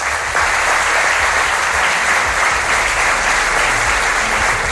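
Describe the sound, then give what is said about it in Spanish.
Loud, sustained audience applause: a dense, even wash of many hands clapping without a break from start to finish. “Un fuerte aplauso para ella.”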